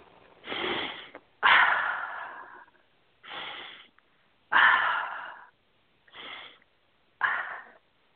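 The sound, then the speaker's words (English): Deep breaths: six separate breathy bursts of air, each about half a second to a second long, spaced by short silences. The rushing, hissy breath noise is moderately loud, with no talk. “Take a nice deep breath.”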